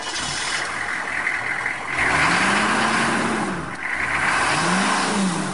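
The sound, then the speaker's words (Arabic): A car engine runs at a steady idle, then revs in two swells that rise and fall in pitch, a fairly loud mechanical drone with no voices over it. “شغل السيارة، شغل السيارة.”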